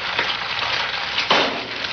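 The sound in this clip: An egg sizzles as it fries in a pan, from a 1987 anti-drug public service ad. A steady, crackling hiss runs throughout, with a brief louder flare partway through, and no voices.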